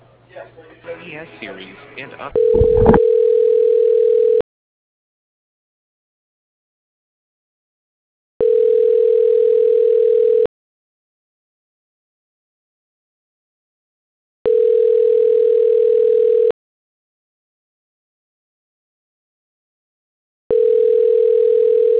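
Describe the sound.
Telephone line tone during a call transfer: after brief talk at the start, four steady mid-pitched tones of about two seconds each, separated by roughly four seconds of silence.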